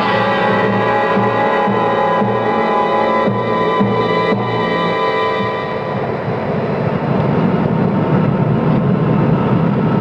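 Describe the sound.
Aircraft engine hum as the plane comes in to land: a loud, steady, throbbing drone that holds without pause for the whole stretch, thick with low rumble and layered steady tones.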